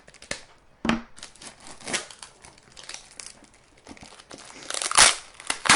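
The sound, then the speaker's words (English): Packing tape is peeled and torn from a cardboard HP toner box in many irregular crinkling, ripping and crackling bursts. The bursts are separated by brief pauses and grow louder and denser near the end. “this is 3 minutes and 45 seconds of me opening tape, buddy.”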